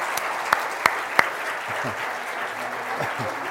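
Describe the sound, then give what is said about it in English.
A church audience applauds with dense, steady clapping. A few sharper, louder claps stand out near the start, and a voice is faintly heard over the applause toward the end. “Can we just give the Lord a hand for what he's doing?”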